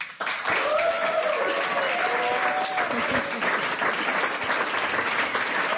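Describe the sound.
Audience applause welcoming musicians onto a stage, a dense, sustained roar of many hands clapping that holds at a steady level, with a few voices mixed in near the start.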